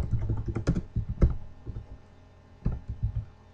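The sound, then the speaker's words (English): Typing on a computer keyboard: quick bursts of light, clicky keystrokes, a short pause, then another run of taps, moderately quiet and with no voices. “I'm gonna press Control T here. Anime online conversation, message text, edit. And it brings up a window with the chat window. I can type away here.”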